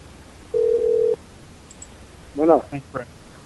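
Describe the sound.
A telephone is hung up, and a steady low dial tone holds for about half a second before cutting off with a click; a brief voice follows.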